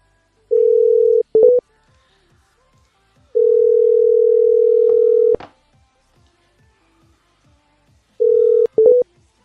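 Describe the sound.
A telephone dial tone sounds while a number is being dialed: a steady, loud tone comes in three separate stretches, each cut off by brief keypad beeps, with faint regular ticking underneath.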